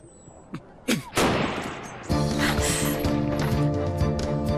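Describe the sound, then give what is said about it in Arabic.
Gunshots fired into the air, two sharp cracks in quick succession, followed by a loud, sustained noisy din. “أطلق حقا؟ أجل، لكن في الهواء. هيا هيا أطلق.”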